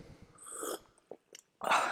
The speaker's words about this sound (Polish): Łyczek kawy.